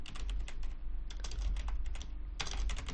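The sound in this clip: Keys clatter on a computer keyboard as a word is typed, rapid clicks coming in several bursts separated by short pauses, with no voices.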